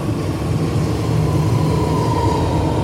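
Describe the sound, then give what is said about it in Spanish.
A subway train rides through an underground tunnel with a loud, continuous rumble and a faint, high wheel whine above it. “para hablar en profundidad me vine al subte, ahí lo pueden escuchar.”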